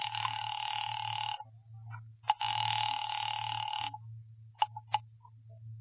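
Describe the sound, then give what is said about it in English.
Telephone ringing on a call placed to a police department: two long, loud buzzing rings over a second each, followed by a few short clicks, all over a steady low hum. “Get me the police department, please. Thank you. Ringing the police department.”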